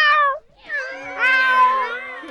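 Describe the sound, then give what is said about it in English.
People in a studio imitate cats meowing. A short meow is followed by longer, drawn-out, overlapping meows, all loud and high-pitched. “It seems as though there's been a whole lot of cats released in the studio.”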